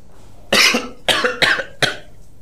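Four harsh, loud coughs come in quick succession as someone clears their throat, each a sharp burst with brief pauses between and no talk over them.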